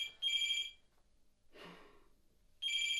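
Telephone ringing with two bursts of bright electronic trilling separated by a quiet gap that holds a short, soft, breathy rustle.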